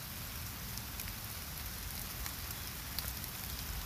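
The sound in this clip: Rain drops pattering in a soft, steady hiss, with a few slightly louder individual drops standing out against the even background.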